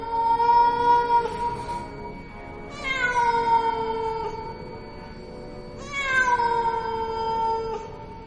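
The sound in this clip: A cat meowing mournfully at night: three long, drawn-out wails, each starting high and sliding downward in pitch, with brief quiet gaps between them.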